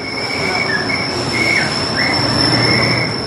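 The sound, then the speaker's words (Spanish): A Mexico City metro train runs along the line toward Indios Verdes and Universidad, a loud, steady rumble of wheels with high, sustained squealing tones that slide in pitch. “La gente sigue entrando a los vagones y aunque las autoridades del metro aseguran que la situación no corresponde al servicio que actualmente se ofrece en dicho trayecto, nosotros pudimos comprobar que sí se siente la sacudida en dirección Indios Verdes y Universidad.”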